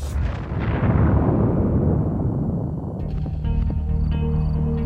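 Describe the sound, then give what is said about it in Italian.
Deep explosive rumble from bombing and artillery fire at the Nevada test site, heavy and roaring, fading over about three seconds before a steady low droning hum takes over. “bombardamenti e esercitazioni di artiglieria. In più, l'area 51 confina con il poligono del Nevada, in cui sono state testate circa un migliaio di armi nucleari, nel sottosuolo e in superficie.”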